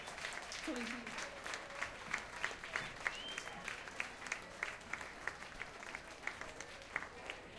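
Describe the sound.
Sustained audience applause after a live band set at the Jyrock 2011 rock festival, dense clapping with a steady pulse of sharper claps recurring at regular intervals throughout, fairly loud.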